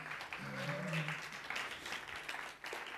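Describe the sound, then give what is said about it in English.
Applause from a church audience welcoming back a returning member: dense, steady clapping from many hands, sustained evenly through the whole stretch at a moderate level. “Welcome, Gloria. Good to see you. Let's give Gloria a hand.”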